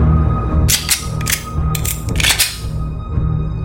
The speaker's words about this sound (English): Was that a pistol I just heard?